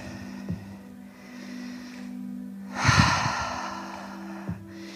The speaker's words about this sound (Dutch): Up dog, inademen. Down dog, uitademen.